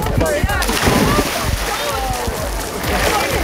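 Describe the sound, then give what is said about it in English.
Water splashes as a person plunges into dock water in Liverpool early in the morning, with irregular splashing and sloshing churning throughout at a steady level. “That is the sound of me hitting the water.”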